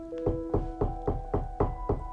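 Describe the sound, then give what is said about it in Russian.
Knocks sound on a church door on Christmas night in an even, fairly quick series of about seven dull, thudding raps over a steady humming tone, with no talk. “Он был весь поглощен своими заботами, когда в дверь постучали.”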